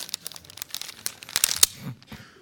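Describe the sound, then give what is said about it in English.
Paper being crinkled and handled, heard as many irregular dry crackles and rustling bursts of varying loudness, with no talking. “what is this? Paper. Yeah, it's paper.”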